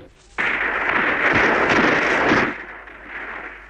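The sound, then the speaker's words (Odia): Soldiers firing blank shots on the order of General Dyer at a public meeting: a sudden loud burst that swells into a sustained roar of gunfire, then drops to a quieter rumble. “ଏଇ ତ ସୈନ୍ୟ ସବୁ ଶୂନ୍ୟ ଗୁଳି କରୁଛନ୍ତି।”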